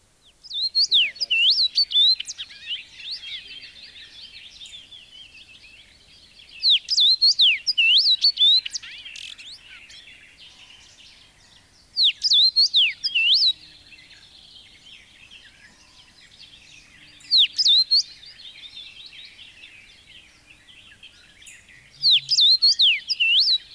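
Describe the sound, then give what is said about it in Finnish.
Common rosefinch song: five short, high, whistled phrases, each a quick run of rising and falling notes, separated by long pauses over a faint, steady background hiss. “Punavarpunen.”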